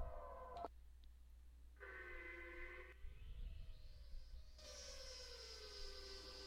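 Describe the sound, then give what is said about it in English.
Telephone tones sound as a number is dialed, a series of sustained electronic tones that shift to different pitches, with one tone gliding upward, over a steady low hum. “Trying to dial a fucking number here.”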